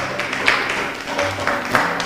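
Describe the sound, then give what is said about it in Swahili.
Classmates applaud a pupil's answer in class with a continuous wash of clapping at an even, moderate level and a few slightly stronger bursts. “Makofi kwake.”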